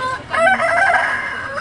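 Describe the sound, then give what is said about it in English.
Live chickens at a Hanoi market, kept in boxes and wooden baskets: a rooster gives one loud, drawn-out crow mixed with clucking, and no one speaks. “This morning at Hanoi's Long Bien Market, there were plenty of chickens, live and freshly killed, in boxes and wooden baskets”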